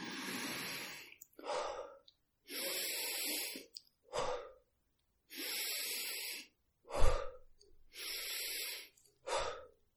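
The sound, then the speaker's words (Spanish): Guided breathing exercise with a deep, forceful inhale through the nose, then a passive exhale let out through the mouth formed into an O. Four breath cycles pair a long, loud rushing intake with a short puff. “inhalarás de manera activa todo lo que puedas por la nariz, hinchando bien los pulmones por completo. Y exhalarás por la boca de manera pasiva, dejando ir el aire de golpe formando una O con los labios”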